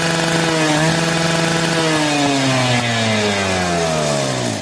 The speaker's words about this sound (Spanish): Así, el torno le suena así a ustedes.